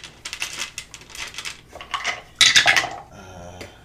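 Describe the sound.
Many dice clatter and rattle across a table in a tabletop role-playing game, a dense run of hard clicks with one louder burst of tumbling partway through.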